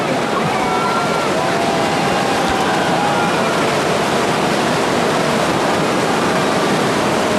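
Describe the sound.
A tidal bore surges up a river as a single curved line of incoming water, making a steady, loud, rushing roar that runs unbroken under a person talking.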